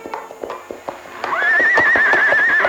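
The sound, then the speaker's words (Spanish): A faithful white colt gives a long, wavering, high whinny among trees while its hooves clip-clop in a steady, loud rhythm throughout. “Entre los árboles surge el manchón inmaculado del potro fiel y prodigioso, Manito, que acude al llamado de su amo.”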